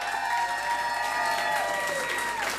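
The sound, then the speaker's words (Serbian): Audience applause for the musicians of a Tina tribute concert at the RTS club, a steady, dense clapping that holds at an even level throughout. “zaslužuju još bar još jedan ogroman aplauz”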